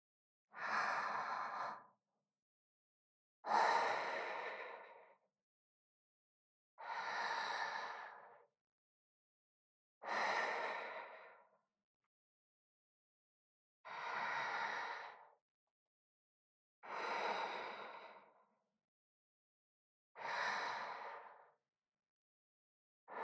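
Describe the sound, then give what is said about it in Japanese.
Slow, deep breaths taken during a stretch with arms spread wide and knees bent to one side. Each exhale is a loud, airy, sighing rush, repeated at a steady rhythm with silent gaps between and no talk. “こうやって両腕を広げて、両膝をくの字に曲げたまま、深呼吸するの。”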